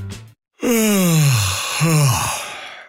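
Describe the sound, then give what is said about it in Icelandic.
A person yawns: a long, drawn-out voiced exhale slides downward in pitch, followed by a shorter second falling breathy sound, fairly loud and without speech. “Ertu núna að geispa?”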